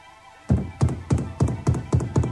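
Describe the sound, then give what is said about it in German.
Knuckles knock loudly on a door of wood and metal, struck with the left hand: seven firm, evenly spaced raps in a quick steady rhythm, each a hollow, thudding hit, with no other sounds. “Mit den Knöcheln der linken Hand klopfte er laut an die Tür.”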